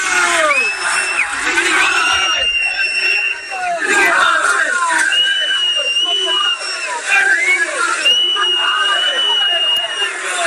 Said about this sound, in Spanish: acaba de marchar el autocar del Real Mallorca, gritos de jugadores mercenarios. Este era el sonido de hace apenas un minuto.